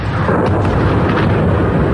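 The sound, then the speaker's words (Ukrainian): Heavy explosions in the city of Moscow make a dense, continuous booming roar that fills the two seconds at a steady loud level, deep rumble dominating, with no separate alarm tones standing out. “У нас бахает. От взрывов орут машины, пищат здесь по соседству.”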